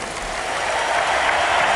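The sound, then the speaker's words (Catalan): A crowd gives an ovation to the Spanish team after an Olympic final in which Spain took silver. Dense, loud, continuous clapping and crowd noise holds steady from start to end. “Y el público ovaciona al equipo español.”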